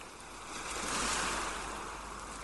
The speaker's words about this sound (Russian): Все пространство вокруг вас наполняется шумом прибоя, шумом морской волны.